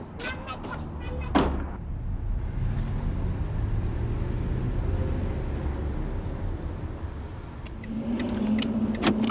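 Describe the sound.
A car's engine rumbles steadily as the vehicle pulls away, with a few sharp clatters near the start and broad road noise throughout.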